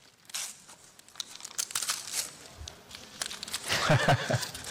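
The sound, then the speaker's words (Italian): Gift wrapping paper crinkling and tearing as it is pulled off a book, many dense rustles and rips that grow busier and louder toward the end. “Esatto, è il libro che ti invito a scartare.”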